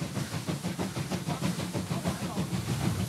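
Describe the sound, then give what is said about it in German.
A locomotive-hauled train laboring up a steep gradient near the Markersbach viaduct, giving a loud, continuous rush of noise with steady, rhythmic beats from the hard-working engine throughout. “Für die Lok und ihr Personal wird es jetzt so richtig heiß. Die vor ihnen liegende Steigung verlangt höchste Konzentration.”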